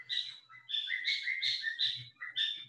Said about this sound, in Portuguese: Tem um passarinho cantando aí. Bonitinho o passarinho, gostei.